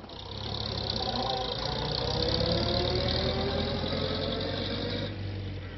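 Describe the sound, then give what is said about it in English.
A car drives off down a drive, its engine a steady mid-pitched rumble that swells slightly and then eases near the end, with no voices. “As John drove her off down the drive”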